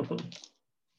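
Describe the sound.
Physical dice rolled for a sledgehammer damage roll in a tabletop role-playing game: a brief, dense rattling clatter of several quick hard taps over about half a second, then sudden silence.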